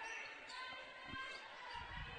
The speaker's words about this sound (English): So the Maroons will dribble up across the timeline.